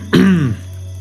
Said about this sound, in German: räuspert sich